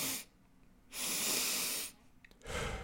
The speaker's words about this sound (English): It's 2 inhales through my nose, 1 exhale through my mouth.